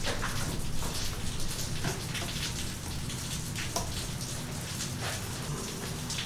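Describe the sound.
Rain falls steadily in a continuous, fairly faint hiss of drops, with brief scattered patters and no voices.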